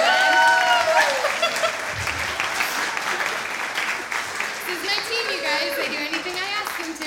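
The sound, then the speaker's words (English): A church audience applauding: dense, sustained clapping, loudest at the start and then holding steady, with voices and cheering over it. “So give it up for the dinosaurs.”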